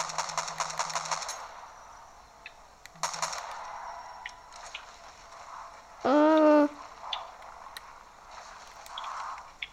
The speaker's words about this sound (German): Ja, ich sitze hinten auf dem Pickup und baller.